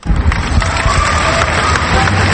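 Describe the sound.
A crowd cheers loudly and continuously in a dense, roaring wash of many voices that holds steady throughout.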